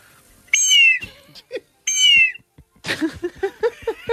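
Two long, shrill whistle blasts from a condor whistle, a whistle meant to imitate the calls of eagles and condors. Each blast is loud and piercing, with the pitch falling slightly toward its end.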